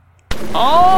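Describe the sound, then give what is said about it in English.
A voice imitates a large nearby explosion: a sudden loud burst gives way to a sustained, rushing hiss with a thin whistling tone that holds and swells toward the end. “then all of you hear a large nearby explosion, not from this building, just a, the sound of like falling masonry.”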